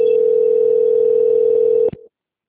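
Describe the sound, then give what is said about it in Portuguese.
Telephone call-transfer tone, a single steady mid-pitched hum that holds level for almost two seconds, then cuts off with a brief click and falls silent. “Eu peço que a senhora aguarde linha, que eu vou transferir o contato para o controle de qualidade, que dará continuidade à finalização da sua operação. Bom. Transferência.”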